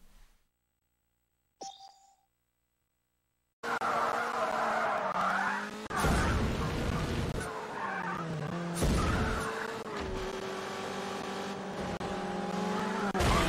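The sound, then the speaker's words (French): Car engines and tire skids from a racing video game demo with a single race level. A few seconds of near silence give way to a loud, steady roar with shifting engine pitch. “Donc ça c'est une démo qui est uniquement sur un niveau. Une course.”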